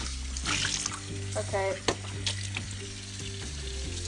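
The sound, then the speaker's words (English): Tap water runs and splashes faintly as a girl rinses her mouth out at a sink, with a few brief sloshing sounds over a steady low hum. “she's rinsing her mouth out”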